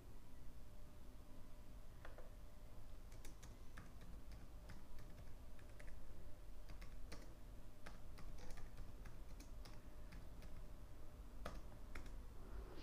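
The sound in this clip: Someone types on a computer keyboard, giving many quiet, irregular key clicks and taps over a faint steady hum, with no talking.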